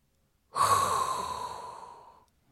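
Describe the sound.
A single long, deep inhaled breath, drawn steadily and then slowly tapering off, heard on its own without any talk.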